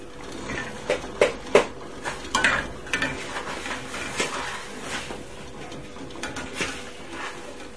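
A spoon clinks against dishes in a few sharp, bright clicks and rattles. The clinks are loudest early, then scattered lighter taps follow over a low, steady background.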